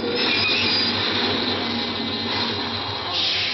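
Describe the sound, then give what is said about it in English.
A subway train runs with a loud, steady rumble and a high squeal from its wheels that lasts throughout. “The subway stopped.”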